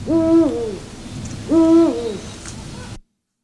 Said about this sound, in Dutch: Dat zijn mannen oehoes.